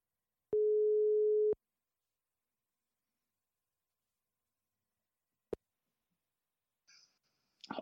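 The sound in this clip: Ringback tone heard while placing a phone call to a football coach in Sweden: one steady mid-pitched tone lasting about a second, then a long silence, a single sharp click, and brief faint sounds at the end.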